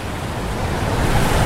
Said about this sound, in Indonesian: itu ada tsunami